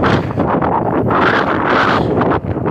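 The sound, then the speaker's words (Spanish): Strong wind blows straight into the microphone on a journey back, making a loud, continuous roaring rumble that surges and eases in gusts, with no voices. “no sé si se alcanza a apreciar el audio, pero hay mucho viento de regreso.”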